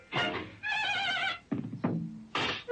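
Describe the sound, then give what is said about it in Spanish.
A horse neighing in a cartoon on television: a long, quavering high whinny between shorter, rougher bursts, loud and with no talk. “un singular caballero cabalga de espaldas a su montura”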